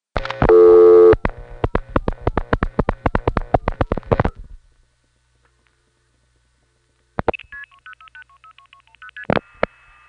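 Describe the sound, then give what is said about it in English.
A telephone call passes through a Brandon, Manitoba SP-1 tandem, which dial-pulses seven digits into an old step-by-step tandem toward a small exchange in Wawanessa. A steady tone and a long run of rapid clicks are followed by silence, then further tone bursts. “The Brandon Manitoba SP-1 tandem, which dial pulses 7 digits into what is probably the old Brandon step tandem to arrive at a small tributary in Wawanessa.”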